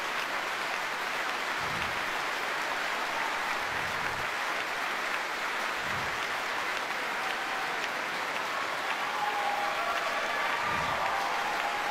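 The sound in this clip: An audience gives sustained, dense applause for the 2015 Cardiff Singer of the World winner as she bows. The clapping stays even and continuous throughout.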